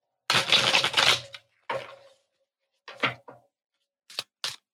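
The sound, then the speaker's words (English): Tarot cards are handled as one is drawn from the deck: a long papery rustle, then a few shorter swipes and small sharp taps, each separated by silence. “Okay, let's pull the final card for this spread.”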